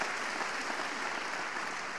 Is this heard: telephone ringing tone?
no